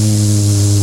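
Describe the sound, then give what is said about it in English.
A bathroom exhaust vent fan runs with a loud, steady electrical hum and a buzzing drone, unchanging throughout. “I hate the sound of that, though. What? That vent.”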